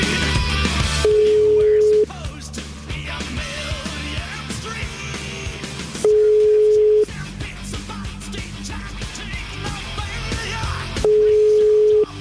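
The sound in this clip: Ringback tone of an outgoing phone call: three one-second beeps at a steady mid pitch, evenly spaced about five seconds apart, sounding over a busy background of other noise.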